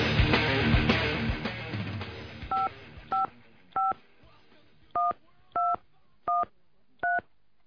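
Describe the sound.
Touch-tone dialing on a telephone: seven clear, evenly spaced beeps of changing pitch follow a louder, muddled stretch of sound at the start.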